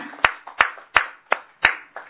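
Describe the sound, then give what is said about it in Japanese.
Hand claps in birthday celebration: six sharp, evenly spaced claps, each ringing out briefly before the next. “盛大な拍手でお祝いをしてあげてください”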